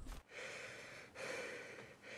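A man wakes in bed at home, shivering and panting. A sharp gasp opens, then a few long, ragged, noisy breaths follow one after another, quiet and breathy with no talk.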